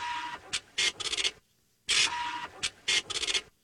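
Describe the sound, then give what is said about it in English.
Dot matrix printer printing: two matching runs of harsh, buzzing rasps, each a long print pass followed by a few short rapid bursts, with brief pauses between, loud and alone. “It's a dot matrix printer.”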